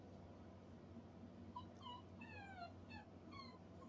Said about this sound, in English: And if you hear little dogs, I'm next door over at her daughter's house.